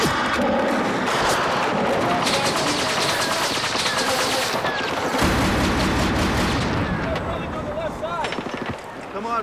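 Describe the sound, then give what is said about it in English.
Rapid bursts of gunfire fill a combat scene where insurgents and police are shooting, a dense, loud, continuous crackle with heavy booms and voices shouting through the barrage. “They're shooting at me.”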